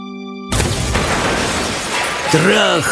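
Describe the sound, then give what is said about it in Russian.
Wooden boards crack and glass shatters as a glass lift crashes through a roof: a sudden loud, dense crash bursts in after a brief tonal lead-in and roars on, with creaking, whining scrapes sweeping up and down near the end. “Трах-тарарах! Треск ломающихся досок, звон разбитого стекла и абсолютная темнота, в которой подъемник с невероятным грохотом и скрежетом прокладывал себе дорогу,”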